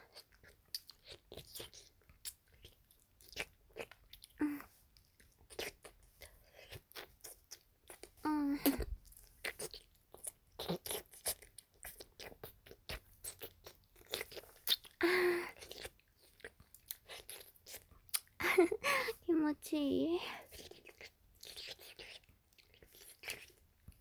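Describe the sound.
Crunchy biting and wet chewing of juicy food, close and quiet, with many irregular bites and chews throughout and a few brief soft voiced murmurs.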